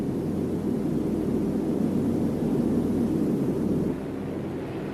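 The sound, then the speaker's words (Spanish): Engines of a Tupolev 114 airliner, a huge 180-tonne plane, drone in a steady, dense roar with a low hum, dropping to a softer level in the last second. “Un avión enorme de 180 toneladas con el morro de cristal, igual que el bombardero del que proviene.”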